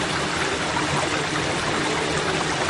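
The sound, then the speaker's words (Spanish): River-like flowing water rushes in the background as a dense, continuous hiss. It stays steady and unbroken throughout, with no other sounds standing out. “y se oye un ruido. No sé si se oye atrás un ruido como de río.”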